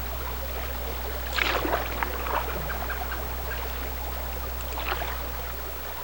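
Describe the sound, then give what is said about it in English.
A canoe is paddled on a tree-lined river, with a few faint watery swishes of paddle strokes over a steady low hum. “paddles toward the sun as it drops behind the tree-lined horizon”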